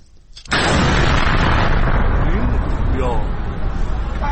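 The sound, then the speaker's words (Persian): A sudden loud blast from a drone attack at night in a city breaks out after a quiet moment. It turns at once into a dense, roaring rumble that stays loud to the end. “این صدای انفجاری بود که شنبه 8 بهمن کمی قبل از نیمه شب در اصفهان شنیده شد.”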